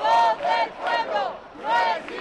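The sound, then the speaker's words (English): A crowd at an anti-corruption rally in Madrid shouts and chants in loud, rising surges of massed voices, with brief dips between them. “At this anti-corruption rally, someone makes a wisecrack about the royal family, and the crowd launches into a fiery debate”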